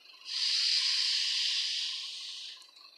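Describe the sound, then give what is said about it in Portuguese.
A deep inhalation fills the lungs during a guided relaxation breathing exercise. It is a steady, airy hiss that lasts about two seconds and then tapers off, with no voice over it. “Encher o pulmão de ar naquela contagem que eu falei anteriormente enche o pulmão de ar”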